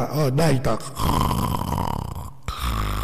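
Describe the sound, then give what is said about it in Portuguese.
Rough, rattling snore-like rasp from a sleeping woman, sustained for about a second and a half after a short burst of voiced sound, then a brief gap before the rasping resumes. “tá roncando ela, viu?”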